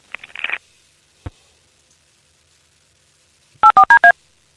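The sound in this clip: Telephone keypad dialing tones: four quick, evenly spaced beeps of differing pitch near the end. Earlier there is a brief rustling burst and a single sharp click, with silence in between.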